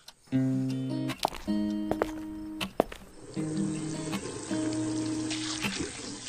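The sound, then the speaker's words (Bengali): Tap water runs in a bathroom while someone washes their face. The stream switches on and off several times, a steady hiss broken by sharp clunks and knocks, with a low hum beneath. “বাথরুমে গিয়ে চোখ মুখ ধুয়ে এলো”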